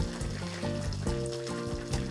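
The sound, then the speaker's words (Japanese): Pork miso soup with new onion and corn bubbling in a pot: a steady, soft, continuous burble with small pops, faint and alone. “ポコポコといっていてもう玉ねぎも柔らかくなってる感じ”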